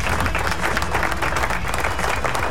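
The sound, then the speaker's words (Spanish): Sustained applause from a crowd, a dense, even wash of many hands clapping that stays steady and fairly loud throughout without a break. “Así que aplausos.”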